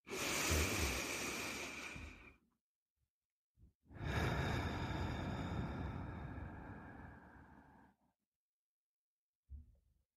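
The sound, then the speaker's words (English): Deep breathing during a guided gratitude meditation: two long, airy breaths, the second longer than the first, soft and alone, separated by a pause, with a brief faint puff of air near the end. “And now, let's give thanks for the present moment. Let's take a breath.”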